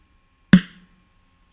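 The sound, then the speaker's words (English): Snare drum heavily compressed at a 50-to-1 ratio: one sharp, loud crack with a brief, clipped ring, then a second hit starting just as the sound ends. “Here is the snare drum at ratio 50-to-1.”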